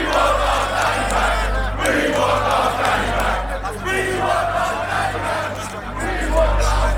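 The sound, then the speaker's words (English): A crowd of demonstrators protests outside a police centre, with many voices shouting and calling out at once in a loud, continuous din. “That was the sound of demonstrators outside Basingstoke's police centre protesting the arrest of Daniel Thomas, better known as Danny Tomo.”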